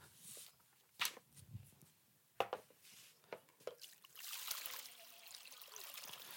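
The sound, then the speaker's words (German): Water trickles and splashes as someone washes an arm, with a few scattered drips at first, then a steadier, soft running and splashing sound. “Ich wasche mir jetzt mal den Arm ab.”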